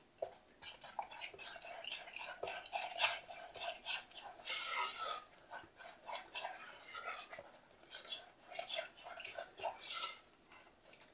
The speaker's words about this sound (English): Crack it in, and we'll mix the egg in.